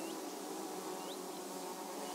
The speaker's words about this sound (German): Die sogenannte sächsische Wespe. Eine besonders schützenswerte Wespenart. Zu erkennen am langen Kopf.